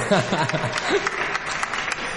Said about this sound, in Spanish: Un aplauso para Esther, ¿no?